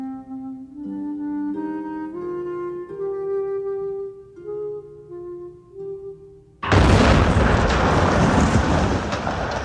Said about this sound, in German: Die Bombe explodierte an einem Montagmorgen um 8.26 Uhr im Haus des israelischen Wirtschaftsattachés in Bad Godesberg.